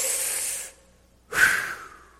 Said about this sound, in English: Everybody real quick, are you with me? Let's take one big deep breath. Here we go.